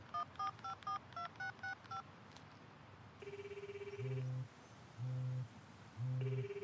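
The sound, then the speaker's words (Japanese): Telephone touch-tone dialing: a quick run of keypad beeps, followed by a repeating ringback tone as the call rings out unanswered. No voices are heard. “もう一度かけてみるか。”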